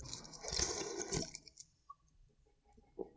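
Slurping sip of a shaken Red Bull energy drink: a short wet, fizzy burst in the first second, then a few faint clicks and swallowing sounds, all quiet.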